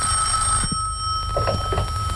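A telephone rings with a steady, sustained electronic tone over a low background hum, heard alone without voices.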